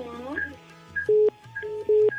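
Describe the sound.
Keypad tones from a phone number being dialed: two loud, steady beeps sound in turn, with a voice speaking before and between them.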